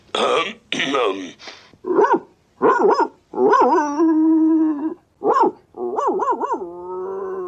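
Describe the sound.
A dog barks in a series of short, rough bursts. Some bursts stretch into longer, howl-like tones, and there are brief pauses between them.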